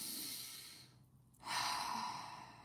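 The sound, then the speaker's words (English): A single deep breath during a guided breathing exercise: a soft, airy inhale, a short pause, then a fuller, sighing exhale, heard alone and fairly quiet. “let's take three breaths. One. Do it with me if you're watching.”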